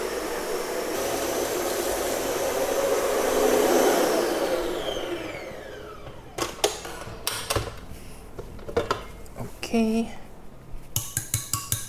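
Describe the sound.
Electric mixer whipping egg whites and sugar toward stiff-peak meringue, its motor whir swelling and then fading over several seconds, followed by many sharp clinks and clatters of kitchenware.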